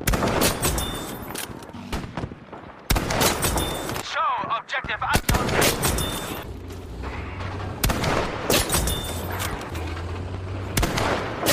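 A video game headshot kill sound effect bursts out amid loud, dense gunfire and booming blasts, with sharp cracks and brief tonal chirps cutting through the barrage.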